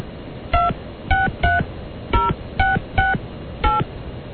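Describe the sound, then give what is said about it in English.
Telephone keypad tones from dialing UK numbers at random with the prefixes, seven separate short beeps in an uneven rhythm, each a clear steady two-tone pitch, alone with no voices. “I'm just dialing numbers at random now”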